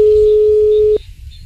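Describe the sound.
A single steady telephone ringing tone on an unanswered call, a flat held beep lasting about a second before it cuts off, leaving only faint background noise.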